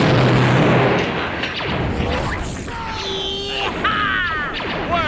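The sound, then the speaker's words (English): Blaster fire crackles during an attack approached by hovercraft: several sharp zapping shots with sweeping, wavering pitch ring out over a dense, rumbling noisy background. “Blaster! Blaster!”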